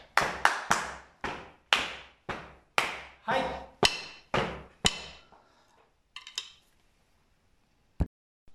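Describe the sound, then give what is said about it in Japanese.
Sharp hand claps in a turn-taking rhythm game, a loud, evenly paced run of crisp claps that stops after about five seconds. A faint rustle and one final sharp clap follow after a pause. “交代に、はいという合図を使いながら手拍子でどんどんリズムをね、作っていくというゲームです。”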